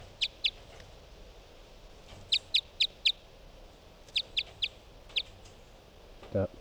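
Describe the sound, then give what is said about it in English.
A numbered study bird sings in a research recording, giving short, high, thin chirps in small clusters of two to four with pauses between. The chirps are faint over a steady background hiss. “This is Bird 367.”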